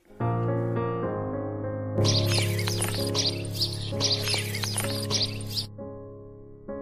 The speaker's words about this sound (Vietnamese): Cô bị đánh thức bởi tiếng chim kêu ríu rít